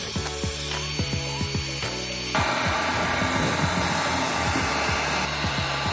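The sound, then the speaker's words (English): A heat gun dries freshly thrown clay pottery with a steady, airy blowing roar. The roar turns noticeably louder and fuller about a third of the way in, over a fast, regular mechanical ticking. “We're gonna use this heat gun to speed up the drying process.”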